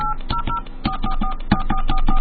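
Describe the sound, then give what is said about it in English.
A telephone keypad dials a number as a rapid, even series of short two-pitched beeps, one per key press, over a steady low hum. “To place a call, please dial the area code and number you are calling.”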